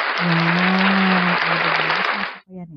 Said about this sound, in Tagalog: Teka, palakpakan naman natin ang mga sarili natin.